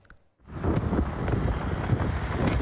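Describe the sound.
Strong wind blowing outdoors in front of a hair salon, roaring in a loud, steady rush of low rumbling gusts after a brief quiet start.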